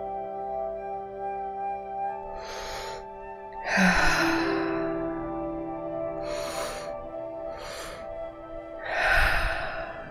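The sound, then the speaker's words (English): Deep breathing during a relaxation breathing exercise: five slow, airy breaths rise and fade over a steady, soft musical drone, with the second and last breaths the loudest and fullest. “Continuing with this breath for just about another minute.”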